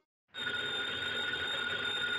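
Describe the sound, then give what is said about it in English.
A telephone bell rings steadily and loudly, heard in a 1950 radio drama. It starts after a brief silence and continues unbroken to the end, with no voices. “that phone bell means adventure.”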